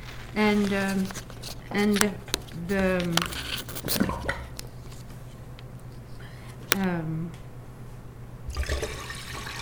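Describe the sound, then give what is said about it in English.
Water being added to imitate surf on a shore: sloshing and splashing bursts, with a louder pour near the end, broken up by short vocal sounds. “I'm going to add water, just like on every shore, there is water,”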